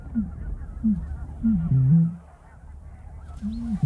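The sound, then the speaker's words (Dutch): Deep, low hooting calls of a Eurasian bittern come in a few short bursts, with a longer, louder call in the middle, over a steady low background hum. “die roodomp is een schitterende vogel. Dat geluid is echt fantastisch. Laten horen? Ik ga hem nog een keer laten horen.”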